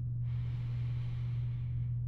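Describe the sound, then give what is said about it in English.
A long, slow breath drawn in through the nose gives a soft, steady airy hiss. It is faint over a low constant hum. “take in a deep breath through your”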